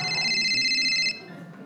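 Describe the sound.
A telephone rings with a steady, bright electronic warble lasting about a second, then cuts off abruptly and leaves only a faint low hiss.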